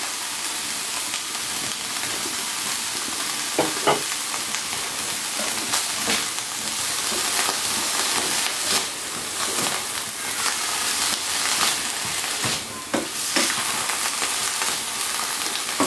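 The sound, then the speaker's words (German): Broth with granulated garlic and granulated stock comes to the boil in a pot, giving a loud, continuous hiss and sizzle with scattered small pops and no talk. “einfach mal eben ein bisschen aufkochen lassen. Ein bisschen granulierten Knoblauch habe ich dran getan, weil wir keinen frischen hier haben. Ein bisschen gekörnte Brühe.”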